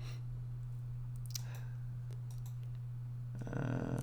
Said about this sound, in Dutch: Zeg je nog altijd bezig met te klikken?